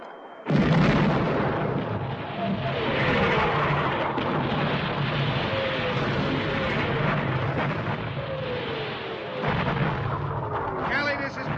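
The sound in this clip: Artillery fire on a battlefield near a bridge too damaged for vehicles: continuous dense, booming blasts and rumbling that run the whole time without letting up, with voices faintly mixed in.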